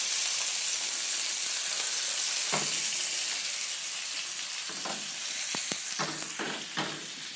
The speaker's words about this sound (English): Best way to braise an octopus or a squid, unless you want it to just have a really subtle flavor, is to really sear it. You're gonna get that the caramelization, and you'll taste it later.